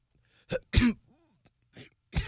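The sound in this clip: A voice imitates a masseuse stifling a cough during a massage: a few short, muffled, throaty bursts, one stronger than the rest, separated by brief silences.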